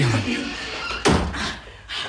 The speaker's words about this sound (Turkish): Kapıyı kapayalım.